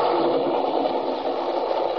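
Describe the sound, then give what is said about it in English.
A roller coaster car roars through a dark tunnel at more than a mile a minute. The sound is a dense, loud, unbroken rumble that holds steady from start to finish. “Gathering momentum, the car screams around a sharp curve at better than a mile a minute. It roars through a dark tunnel with Nancy”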